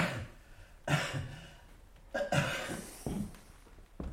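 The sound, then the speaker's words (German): A man coughing on a doctor's instruction during a medical examination, right after being told to breathe deeply: a few faint, soft coughs spaced out over several seconds. “Husten.”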